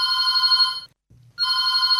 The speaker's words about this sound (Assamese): Phone in গানে গানে অনুষ্ঠানৰ ফোনতে ফোন কলটি লওঁ।